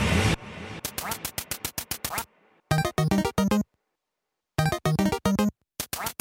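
Ducks quack loudly in bursts of rapid, repeated nasal calls, with short silent gaps between the bursts and many quacks in all.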